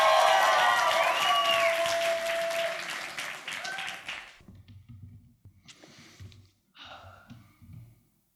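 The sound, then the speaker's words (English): An audience at a poetry slam final round applauds to welcome a poet to the stage. Loud, dense clapping for about four seconds drops off sharply, leaving faint scattered noises and breaths. “And welcome to the stage, your first poet in the final round. Give it up for Eric!”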